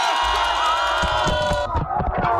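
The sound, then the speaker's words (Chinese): A crowd cheers and whoops at a pond-side summer neighbourhood game, a dense and loud wash of mixed voices that holds steady throughout, with excited shouts rising out of the mass. “荷塘趣味比拼圆满结束，整片池塘久久回荡着大家的欢笑与喝彩。”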